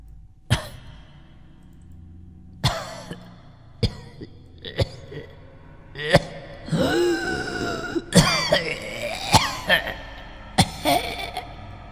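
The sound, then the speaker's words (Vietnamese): Painful, dry coughing as a string of harsh, sharp coughs at irregular intervals, with strained, moaning vocal sounds rising and falling between them in the middle. “Đúng lúc này, ở dưới lầu 1 vang lên một trận ho khan đầy thống khổ và rùng rợn.”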